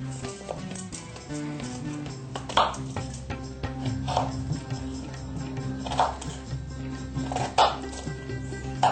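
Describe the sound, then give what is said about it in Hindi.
Knife cutting a peeled vegetable into cubes on a board, a few sharp, faint chopping strikes spaced irregularly over soft background music. “इसका छिलका उतार लेते हैं। इसके बाद इसको हम क्यूब की शक्ल में काट लेते हैं।”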